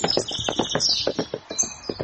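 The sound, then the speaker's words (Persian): Hoofbeats of a horse carrying a rider as it approaches: a steady, quick clip-clop of many hard hoof strikes in an even rhythm, moderately loud and heard alone without voices. “از دور مرد تنها رو دید که سوار اسب شده و داره بهش نزدیک میشه.”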